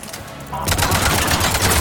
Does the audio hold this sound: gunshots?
yes

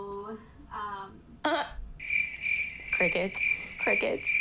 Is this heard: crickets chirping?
yes

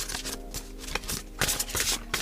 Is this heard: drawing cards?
yes

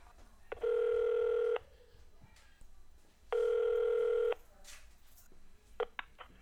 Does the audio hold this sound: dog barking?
no

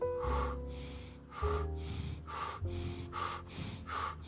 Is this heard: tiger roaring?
no

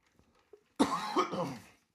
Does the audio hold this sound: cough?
yes

